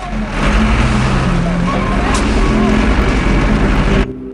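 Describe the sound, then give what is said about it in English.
Heavy plant machinery works at roadworks, a loud, steady low engine drone with a throbbing rumble that holds evenly before cutting off near the end. “Heavy plant machinery sets to work.”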